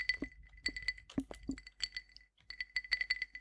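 Ice cubes clinking in a glass of cold, rum-like drink, poured as 5 cl at 50 percent strength with more than one cube. Many bright, quick clinks and rattles come in uneven bursts, with a short quiet pause partway through.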